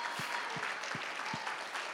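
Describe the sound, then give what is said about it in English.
A church audience clapping their hands in praise, producing a continuous wash of applause. A low thump recurs four times at steady intervals beneath the clapping. “Can you clap your hands unto the Lord right where you are and give him some praise that he is worthy of?”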